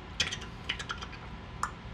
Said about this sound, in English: let's look it up. So we typed it in.